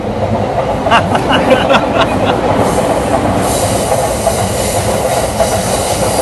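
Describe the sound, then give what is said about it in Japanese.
An outbound Sobu Line commuter train rolls past, a loud, steady roar of wheels on rails with faint rhythmic clicks and some metallic squeal, continuous from start to end. “これね、総武線の下り で、もう電車来ても、うん、気にすんのやめましょう”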